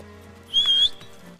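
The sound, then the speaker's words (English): A man whistles in a forest, giving one short, steady, high-pitched note of about a third of a second over a faint, quiet background. “Will emerges from behind a tree trunk and whistles.”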